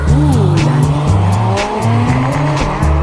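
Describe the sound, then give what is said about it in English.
Porsche 911 sports car engine revs hard with rising and falling tones while its tires squeal, a loud, continuous blend of mechanical roar and screeching rubber. “Like the Porsche 911. Sounds good, doesn't it?”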